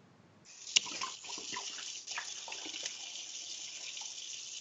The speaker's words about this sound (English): I am rinsing out a beer bottle. I recycle, remember?